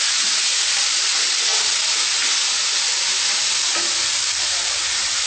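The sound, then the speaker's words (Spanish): Food frying in a pan makes a loud, unbroken sizzling hiss that holds steady for the whole stretch, with faint crackles underneath and no talking. “Bueno, esperamos que se frite.”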